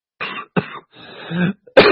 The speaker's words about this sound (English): I still got a bloody cough from there.